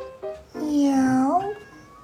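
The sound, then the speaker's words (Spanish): A human voice imitates a cat's meow, a single drawn-out nasal cry that holds steady and then bends upward near its end, loud and clear with no other talk around it. “Miau. Es lo que dice el gato oculto”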